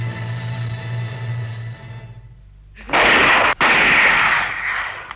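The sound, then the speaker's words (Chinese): Gunfire sound effect in a radio drama depicting guerrillas attacking an enemy blockhouse during wartime, where a sustained tonal passage fades and then gives way to a loud, dense roar of shooting that breaks off briefly before resuming. “枪声，哪来的枪声呢？”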